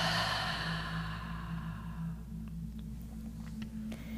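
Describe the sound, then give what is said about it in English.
A slow, deep breath taken during a guided self-worth meditation, heard as a soft, airy rush of breath that gradually fades over about two seconds above a low, steady hum. “Take a deep breath, deep inhale, deep exhale.”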